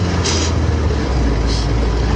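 A car engine accelerating hard during a street chase, a loud, dense, steady roar that holds for the whole clip with no break.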